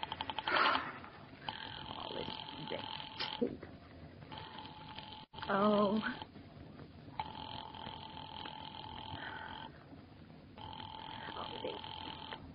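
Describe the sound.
Telephone signal tones while a call to the police department is being placed through an operator on an older phone line: several long, steady buzzing tone bursts repeat with short gaps between them.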